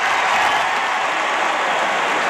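A stadium crowd gives an ovation during a ceremony. Thick, continuous applause forms a loud, even wash of noise with no pauses or breaks.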